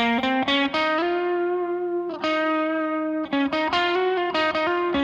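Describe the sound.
An electric guitar with distortion plays the opening line of a solo: a burst of quick picked notes, two long sustained notes, then another run of rapid notes. It is loud and heard alone.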